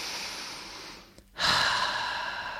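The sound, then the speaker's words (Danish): A deep breath drawn in through the nose: after a brief near-silent pause, a sudden airy, hissing inhale rises and holds steady, fading slightly toward the end. “Hver gang du har sagt sætningen, tager du en dyb indånding gennem næsen,”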